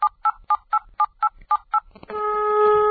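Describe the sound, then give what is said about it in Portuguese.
Telephone keypad dialing tones sound as eight short, evenly spaced electronic beeps in a steady rhythm, followed by a sustained, buzzy multi-tone signal on the line as the call connects. “Então vamos ligar pra ela.”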